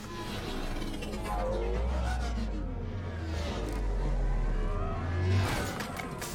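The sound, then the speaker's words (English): A futuristic air car arrives in a video game, heard as a loud, continuous whirring engine rumble with swelling whooshes that rise and ease throughout. “Okay, Joker's coming to pick us up in an air car.”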